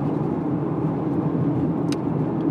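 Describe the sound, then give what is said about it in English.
Steady engine and road drone of a car being driven, a continuous low rumble at even loudness with no talk. “I'm driving like an asshole.”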